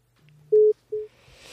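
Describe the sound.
A telephone busy tone plays after a call is hung up: two steady, mid-pitched beeps separated by a short gap, the second one shorter, followed by faint hiss.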